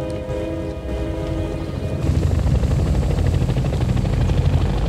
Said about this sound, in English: The choppers approach the bridge.